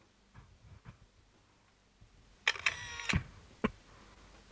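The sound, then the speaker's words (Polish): Camera shutter of a reading device photographing a paper leaflet. Faint ticks lead into a sharp, crisp double-click burst, followed by one more brief click, all fairly quiet. “I teraz spróbuję wykonać zdjęcie. Uwaga. Robię zdjęcie.”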